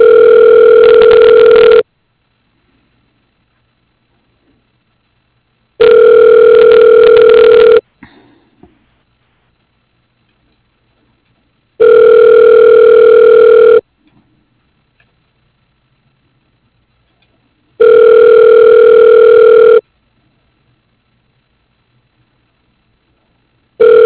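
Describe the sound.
A telephone ringback tone plays while a call is transferred to an attendant: four loud, evenly spaced steady tones, each about two seconds long, separated by longer stretches of silence.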